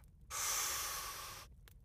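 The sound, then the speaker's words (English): A single deep breath drawn in, heard as a loud, steady airy rush lasting a little over a second with nothing else around it. “let's just take in a deep breath”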